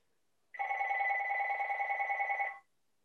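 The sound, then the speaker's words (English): Telephone bell ringing in one sustained burst of about two seconds, a bright, rapidly trilling electronic warble at steady pitch, heard alone with silence before and after. “The phone's ringing. No worries.”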